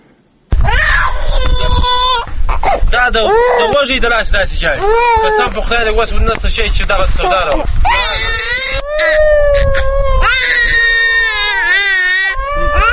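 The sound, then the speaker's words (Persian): An infant wails and screams in a refugee camp, where a family displaced by war in Helmand to Nangarhar lives in old tents beside the Kabul–Jalalabad road. The cries are loud, high and continuous, with rising and falling sobs lasting about twelve seconds. “گزارش را تهیه کرده است که با صدای گریه اطفال شروع می شود.”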